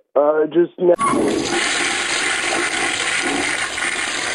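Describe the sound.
A toilet flush sound effect follows a brief voiced tone and bursts into a loud rushing roar of water that carries on steadily to the end.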